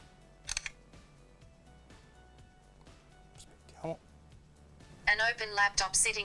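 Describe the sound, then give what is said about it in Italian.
A brief shutter click from a phone camera app on Android as a photo of a laptop is taken, with a second soft click later and talking toward the end. “proviamo la versione per Android, in cui inquadriamo ad esempio il portatile, proviamo a scattare una foto.”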